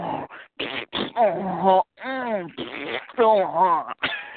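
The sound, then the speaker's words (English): A voice imitating a string of farts: many loud, sputtering, buzzing mouth bursts with wobbling pitch, separated by short gaps. “the chick is just farting away, and all you hear is, like,”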